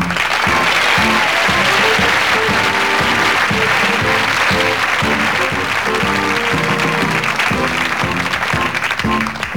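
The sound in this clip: Audience applause welcomes a guest onto a talk show stage. Loud, continuous clapping blends with rhythmic band music that plays throughout at a steady level.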